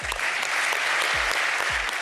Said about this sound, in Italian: Alessandro Del Piero, a cui io dedicherei un applauso in quanto ha fortemente voluto rimanere qui con noi ancora per un anno e per quello che sarà il suo ultimo anno in bianconero.